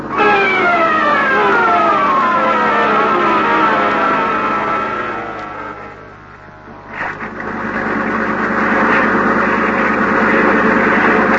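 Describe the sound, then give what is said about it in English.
A Coast Guard boat siren over a running boat motor: loud sweeping siren tones dip briefly midway, then a broad, rough engine roar fills the rest. “Did you hear anything just then? No, you can't hear anything over this motor. Well, I can. It's a Coast Guard.”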